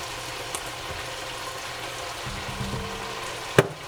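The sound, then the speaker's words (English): Meat sizzles as it browns in a pot for a Persian stew, a steady, even hiss of frying that runs throughout, broken by one sharp clatter near the end. “So once your meat appears not to have any more pink left in it, give it a nice stir and then add to it”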